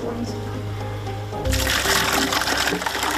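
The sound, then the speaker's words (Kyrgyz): Water gushes and splashes as buckets are filled, a steady rushing pour that starts abruptly midway after a low hum and continues loudly to the end. “Кошкөлү келин ушинтип сууну күнүгө чакалап ташып келет.”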